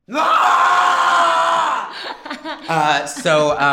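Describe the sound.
A loud, sustained scream lasting about two seconds, fading into quieter sounds and then a voice talking.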